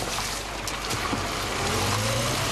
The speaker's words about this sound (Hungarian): Ez az út Csapról vezet Beregszász irányába. Még a tapasztalt sofőrnek is nehéz megbirkózni a kátyukkal.